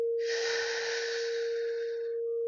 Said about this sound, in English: Breathe deeply in.